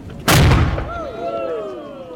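A historic cannon being test-fired by interpreters: one sudden, very loud blast with a deep boom, followed by a long rumbling decay that trails off.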